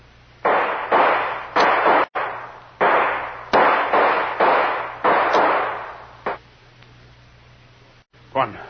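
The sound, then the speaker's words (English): Gunfire erupts as a rapid run of about seven loud, sharp bursts between two airfield hangars. A lone fainter crack and a brief late pop follow after a pause. “Boy, that was close. One of those bullets blew my head off.”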